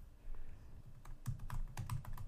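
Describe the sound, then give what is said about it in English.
Someone types on a computer keyboard: soft, quick key clicks that start sparse and grow into a faster run of taps, all quiet and with no talking. “Typity type. Clickety, clickety, clack.”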